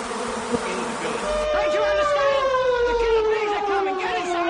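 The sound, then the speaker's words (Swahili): A swarm of thousands of bees pouring out of hives shaken open and broken by hand, attacking security officers: a dense, steady buzzing drone throughout, with a whining tone that slowly drifts lower in pitch. “maelfu kwa maelfu ya nyuki wakatoka kwenye mizinga ile na kuanza kuwashambulia maafisa wa usalama.”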